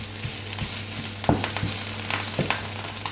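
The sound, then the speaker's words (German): Stirring and sizzling of ingredients roasting in a pan for vegan jackfruit empanadas. A steady frying hiss runs throughout, broken by a few short scraping knocks of the utensil. “Rösten wir schön mit an. Ja, weil dann nimmt es die Bitterstoffe weg”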